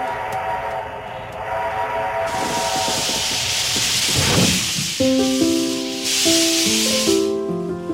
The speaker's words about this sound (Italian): Questo suono che senti è il nostro treno a vapore.